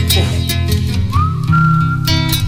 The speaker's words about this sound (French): Ah, il siffle bien.